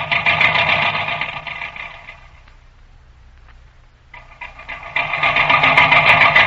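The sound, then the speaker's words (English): A tractor motor runs on a grading job with a steady, rough mechanical hum. It drops to a quieter low idle in the middle, then rises back to full volume. “Hey, shut off that motor so as I can hear you. Shut off that darn motor.”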